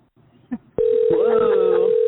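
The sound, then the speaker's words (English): A telephone ringing out on a call to Germany: a faint click, then a steady, loud ringback tone that holds unbroken to the end. “Trying to reach Germany here.”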